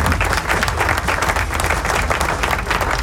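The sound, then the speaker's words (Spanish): Applause sound effect of a crowd clapping, played as dense, steady, loud clapping that fills about three seconds without a break. “Tremendo aplauso. ¿Dónde está el aplauso del Lechón Atómico? No tiene los aplausos donde los tiene que tener. Ahí está.”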